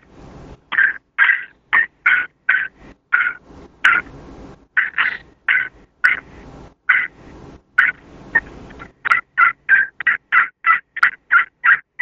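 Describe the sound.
Sharp cutting calls from a Scarlet Fever crystal friction turkey call. Many quick, loud clucks and yelps come in irregular bursts, then tighten into a fast, rapid-fire run near the end.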